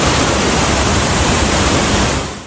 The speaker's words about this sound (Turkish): 1916 yapımı asırlık bir ana su borusu büyük bir basınçla infilak etti. Patlamanın etkisiyle tonlarca su sokaklara fışkırdı.